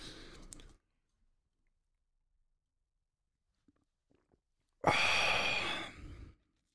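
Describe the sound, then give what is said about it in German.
Someone sipping tea makes a short slurping sound at the start, then a few faint clicks and a longer, breathy rush of air after a pause. “Wir trinken jetzt einen Schluck Tee oder wenn du keinen zur Hand hast, zack, weißt du Bescheid, ne?”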